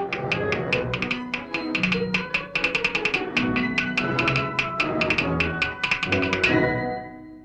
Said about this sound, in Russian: Зайчонок в такт музыке стучит лапками по пню.